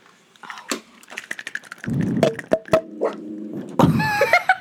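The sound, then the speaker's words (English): Plastic clicks as a battery cover is snapped back into a Bluetooth mouse: a few sharp, bright snaps scattered among softer handling rustles, with a rougher low scraping stretch in the middle. “That's the sound of power coming to my Bluetooth mouse. Let's click it back in.”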